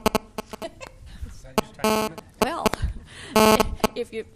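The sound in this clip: A cell phone beeps during a conversation, with two buzzy electronic bursts standing out among short clicks while people keep talking.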